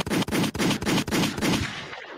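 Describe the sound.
A gunfire sound effect fires seven loud, evenly spaced shots in a rapid run, each blast broad and harsh, before a fading tail.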